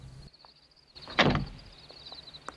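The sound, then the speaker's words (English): A car door opens outside a ranch-style rest home with one short clunking burst of mechanical noise, set against a quiet background with a steady high hum and a few faint ticks. “He walks round the back of the car and holds Evelyn's door open for her.”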